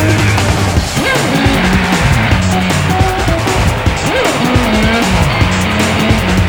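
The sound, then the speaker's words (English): Hot rod cars racing, with a loud, continuous roar of engines and repeated sharp tire squeals layered over the steady drone. “What a set of wheels! Hot shots in hot rods.”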